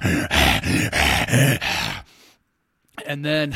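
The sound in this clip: A voice imitating a growl with a string of rough, throaty bursts lasting about two seconds. A silent pause follows, then another voiced sound.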